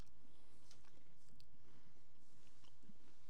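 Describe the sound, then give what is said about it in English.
Faint chewing and biting on a grape Pop-Tart, with a few soft crunchy bites over steady low noise, without talk. “It's probably because they taste like every normal Pop Tart. These are not bad.”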